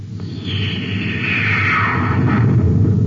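A spaceship fires a cosmic torpedo: a whistling tone sweeps steadily downward in pitch over a constant low rumble, loud and alone.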